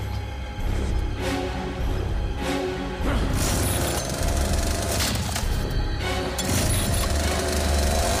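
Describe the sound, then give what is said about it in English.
A chainsaw runs among a row of lockers, its engine giving a loud, dense, buzzing drone that holds steady for about eight seconds without a break. “He grips his chainsaw.”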